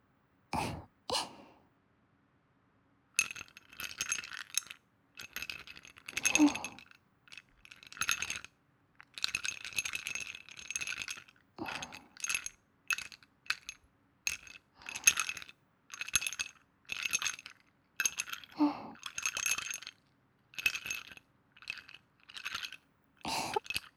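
Ice cubes clinking and rattling, in many short crisp bursts of clicks and crunches. A brief quiet gap follows the first burst, then the knocking becomes busier and more continuous with small pauses between clusters.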